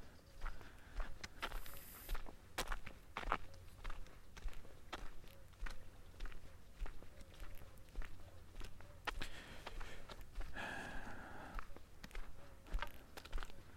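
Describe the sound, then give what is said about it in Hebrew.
Footsteps of someone on a walk through a forest: a long, steady series of soft, quiet steps that continues throughout. “עכשיו אני צועד ליד מקום”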